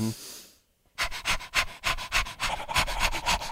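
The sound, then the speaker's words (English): A person imitates a Chihuahua's fast panting breath with rapid, breathy huffs in a quick, steady rhythm that starts after a short pause and continues to the end. “So you start with a Chihuahua. And could you do a little Chihuahua breath”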